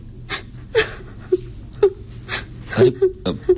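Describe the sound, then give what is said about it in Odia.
A person cries in short, whimpering sobs, a string of brief, high catches and breathy gasps coming at an uneven rhythm. “ଏଥିରେ କାନ୍ଦିବାର କଣ ଅଛି?”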